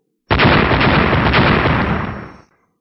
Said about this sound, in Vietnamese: Ba tiếng nổ đồng thời vang lên, lần nữa ba chuôi thanh sắc cự kiếm lại bị bật ra